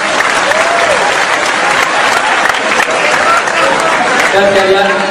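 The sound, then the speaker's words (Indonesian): Audience applause at a gathering fills the whole clip with loud, steady, dense clapping and no break, and voices are faintly audible beneath it. “Tepuk tangan yang pertama kita.”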